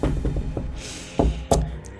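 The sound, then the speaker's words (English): Two sharp knocks on wood, a moment apart, stand out from a low, steady background, with a few softer taps just before them. “But now everyone in our home is well, knock on wood.”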